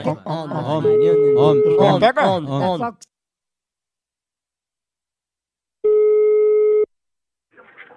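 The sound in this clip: A telephone call's ring tone sounds once as a steady electronic burst of about one second. It stands alone after a stretch of people talking, and a faint voice follows shortly after.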